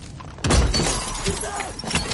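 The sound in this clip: A deer smashes into the windshield of a Mercedes car on a road. A sudden loud impact with shattering, breaking glass is followed by sustained crunching, rattling debris noise.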